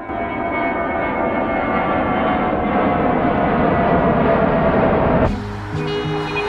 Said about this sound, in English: The aircraft descends, grey clouds above it.